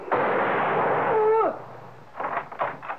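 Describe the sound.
A pistol shot in a period audio drama: one loud, broad blast that holds for over a second, followed by a few softer, brief bursts.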